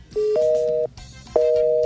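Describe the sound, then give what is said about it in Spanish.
A phone call fails to connect, giving a busy tone: two loud, steady electronic beeps, each about half a second long, separated by a short gap over faint background noise. “Ya, no, mira, no entra la llamada.”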